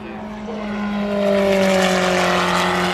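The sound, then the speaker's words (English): Engine note of a Ferrari 488 race car passing on track at the Porsche Curves after dark, a loud, steady harmonic drone that swells over the first second and a half, then holds strong to the end. “One of the Ferrari 488s.”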